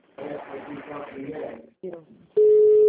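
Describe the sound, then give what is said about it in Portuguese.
Someone places a phone call in a group chat: a steady electronic call tone sounds at the end, after a stretch of muffled voices. “Não, tem alguém ligando para alguém. Quem que tá ligando aí?”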